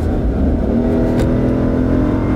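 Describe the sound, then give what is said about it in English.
Engine roar comes from a 2022 Jeep Grand Wagoneer SUV with a 6.4-liter Hemi V8, accelerating in sport mode on a road over a bridge. The drone and road noise are loud, broad and steady, with no talking. “Let's put this in sport mode and hit the gas and see what this 6.4 liter Hemi V8 can do.”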